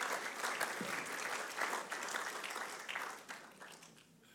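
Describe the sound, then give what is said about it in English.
Applause from a church audience at an Easter Sunday service: dense, steady clapping that carries for about four seconds, then thins and fades toward the end. “So could you put your hands together and welcome Dan Simpson up as he comes to share his story with us today.”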